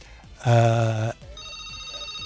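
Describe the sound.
A telephone rings with an incoming call at a radio station: one loud, buzzing ring lasting about half a second, followed by a fainter, steady, higher tone.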